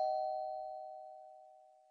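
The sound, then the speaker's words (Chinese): A single doorbell chime rings at the front door of a family home. It is one faint, steady tone that slowly fades over about two seconds, with no other sounds. “按了自己家的门铃。”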